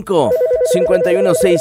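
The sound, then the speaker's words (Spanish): A telephone ringtone announces an incoming call, a steady electronic tone repeating beneath people talking over it. “Hay llamada.”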